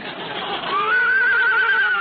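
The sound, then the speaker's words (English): A horse whinnies at a race starting gate: one shrill neigh that climbs and then holds a wavering high tone over a steady background wash, with no voices. “The horses are all in the starting gate.”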